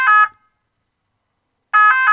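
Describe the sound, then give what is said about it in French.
A French ambulance siren plays two short, loud bursts of its bright two-tone wail, separated by more than a second of silence. “Exemple, ça, c'est le bruit d'une ambulance française.”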